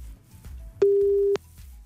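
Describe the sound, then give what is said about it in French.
Ringback tone of an outgoing telephone call: a single steady, mid-pitched tone lasting about half a second that rises clearly above a faint, quiet background. “Ça sonne.”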